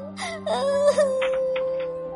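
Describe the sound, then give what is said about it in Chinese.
A voice imitates a girl crying, with a high whimpering wail that wavers and holds, followed by a few short, quieter sobbing catches. “真不公平！我讨厌我的耳朵，我讨厌我的耳朵。回到家，我哭了。”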